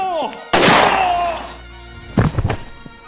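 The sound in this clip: A single gunshot rings out in a comedy drama scene: a sudden, loud, sharp bang with a roaring tail that decays over about a second. A voice follows shortly after.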